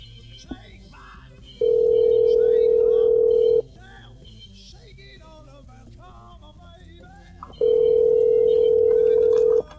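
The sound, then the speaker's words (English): A telephone tone plays while a call to a number is placed: two long, steady, even tone bursts of about two seconds each, separated by a gap in which people talk quietly. “Right, I'm going to call this number.”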